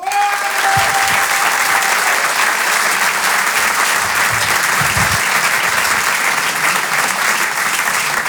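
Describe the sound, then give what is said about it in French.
Loud, sustained audience applause at a live stand-up comedy show, a dense unbroken roar of many hands clapping that holds at an even level throughout. “On peut l'applaudir très fort également.”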